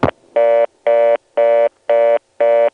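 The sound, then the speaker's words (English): Telephone exchange switch 672 going to reorder: a brief click, then five evenly spaced, identical bursts of a buzzy, harmonic-rich mid-pitched tone with short silent gaps between them, loud and alone. “Let's quickly compare the sound of the two switches going to reorder. Here is 672 going to reorder.”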